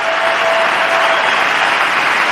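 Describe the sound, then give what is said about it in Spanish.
A tennis arena crowd gives an ovation on the center court in Málaga during a player's retirement farewell. Dense, loud applause rolls on steadily and unbroken from start to finish. “arropado por esta pista central del Martín Campena de Málaga y recibiendo una ovación más”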